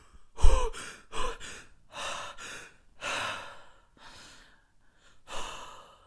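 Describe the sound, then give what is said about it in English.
A voice imitates hard, gasping breaths, like someone jumping into a cold shower. A series of sharp, rapid breathy gasps comes in uneven bursts with short gaps, the first the loudest and the later ones softer. “like cold showers where when you jump into the shower, you're like breathing really hard, like”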